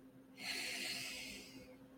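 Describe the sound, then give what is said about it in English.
A person taking a slow breath during a guided breathing moment: one soft, airy inhale of about a second, faint and alone, with no talk over it. “I'm going to invite you in this moment to take a breath with me.”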